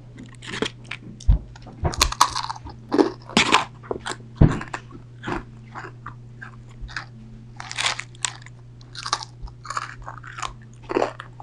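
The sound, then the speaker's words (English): Bites into chewy, very crunchy food followed by chewing, giving many loud, irregular crunches and crackles over a steady low hum. “Very chewy, and it's very, very crunchy, and yeah, I think it'd be a great actual thing for an ASMR video. Let's take another bite.”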